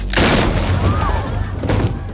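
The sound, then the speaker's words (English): Doors burst open into a hall full of warriors with a loud, sustained, rumbling crash and heavy thudding that fills the whole moment. “The doors burst open.”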